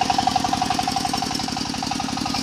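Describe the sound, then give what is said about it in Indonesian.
Engine of a rice milling machine: a rapid, steady knocking chug with regular thumping pulses and a metallic rattle, holding an even loudness throughout. “Joni, Jaska dan Febri sangat senang saat mesin penggiling padi melintas.”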